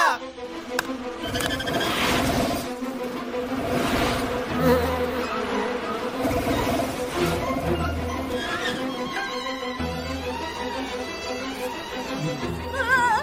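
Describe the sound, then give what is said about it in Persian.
Bees buzz in a steady, droning insect hum that runs unbroken at a moderate level, with voices surfacing now and then over the buzzing. “بس منظورش از خار میشه زنبور بود نه و گیاه.”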